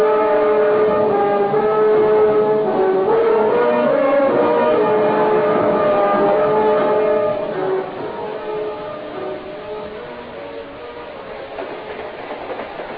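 A train runs on rails with a steady, loud rumble and humming tones throughout, easing somewhat quieter in the last few seconds.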